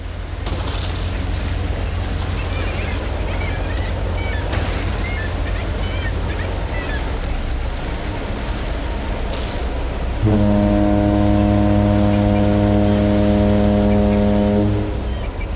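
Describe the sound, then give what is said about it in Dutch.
Giant icebreaker ship at sea on an expedition to an extremely cold place: a steady low engine rumble and wash of water run throughout, then a long, loud horn blast with rich harmonics fills the final five seconds. “Een gigantische ijsbreker die ons meeneemt op expeditie naar een van de meest extreme plekken ter wereld.”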